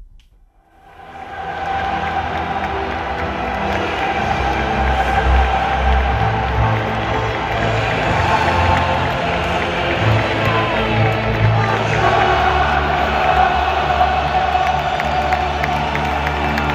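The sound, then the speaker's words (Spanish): Real Betis supporters at La Cartuja sing the Champions League anthem in a loud, sustained mass of voices as their team leads Elche 2-1 and clinches Champions League qualification, with roaring and cheering throughout. “Así ha coreado la afición verde y blanca el himno de la Champions.”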